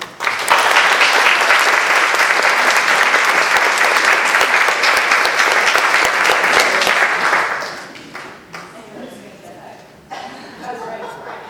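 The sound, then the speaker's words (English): Loud, sustained applause from an audience welcoming a guest onstage, a dense steady roar of clapping for about seven seconds before it thins out and fades to scattered claps. “Please give Carly a hearty welcome.”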